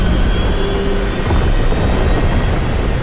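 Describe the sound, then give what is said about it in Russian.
Airliner jet turbines spinning up for takeoff make a loud, steady, dense roar with a faint high whine, holding at the same level throughout. “Разгоняются турбины самолета.”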